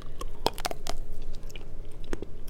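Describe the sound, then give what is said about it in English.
Someone bites into strawberry cake made with ground strawberries and chews it. The chewing makes faint, irregular moist clicks and soft crunches, and no one talks. “I'm going to take a bite of that.”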